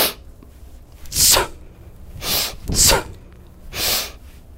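Sharp breathy sniffs accompany kettlebell swings: four short hissing bursts of air spaced about a second apart, with no talking.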